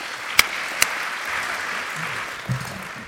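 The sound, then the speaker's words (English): Audience applause at a panel event welcoming the speakers: two sharp claps, then a soft, sustained wash of clapping that carries on to the end. “So welcome to you, Constantin. Could we give them all a warm welcome, please?”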